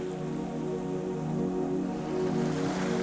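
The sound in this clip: Ocean waves wash softly on a lonely beach, a faint, steady hiss of water over a sustained musical tone that holds throughout.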